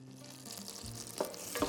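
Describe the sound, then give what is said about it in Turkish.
Butter melting and sizzling in a pan at the start of cooking Ankara tava with orzo, a faint, steady hiss broken by a couple of brief knocking sounds near the end. “İlk etapta tereyağıyla başlıyoruz. Tereyağların güzelce erimesi lazım.”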